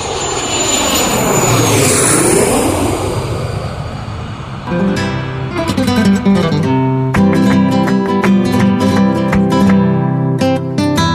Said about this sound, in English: Are we ready for takeoff, Captain? The tower has cleared us for takeoff.